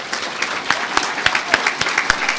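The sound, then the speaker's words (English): Audience applause at a farm bureau summer conference after an award announcement: dense, steady clapping from many hands, with sharper individual claps standing out throughout. “please join me in a round of applause for Jay and Allison Juergen of Weakley County”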